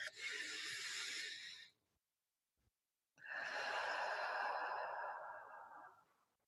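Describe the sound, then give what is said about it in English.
A slow, deep breath in and out during a guided breathing exercise: a soft, airy breath of nearly two seconds, then silence, then a longer, fuller breath that gradually tapers away. “Just let's start by taking a slow deep breath in and letting it out.”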